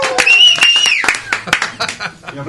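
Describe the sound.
Audience clapping mixed with loud shouting voices at a metal music event, with a handful of sharp hand claps scattered through the cheering.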